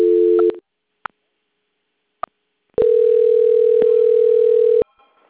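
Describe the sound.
Telephone tones during a call transfer: a short steady tone, then two sharp clicks, then a long steady tone of about two seconds, with no talk.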